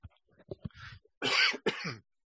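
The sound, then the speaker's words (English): Someone coughs: a few soft, scattered throat-clearing noises, then two louder, harsher coughs close together. “I have to mute just one second so I can cough.”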